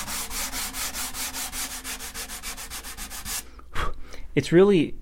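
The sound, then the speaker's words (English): Sandpaper rubs back and forth on wood being thinned for a guitar, making many quick, even, rhythmic rasping strokes that stop abruptly near the end. “the sound of the sandpaper, which can change a little bit as I remove the wood. It kind of gives me an indicator of when to stop.”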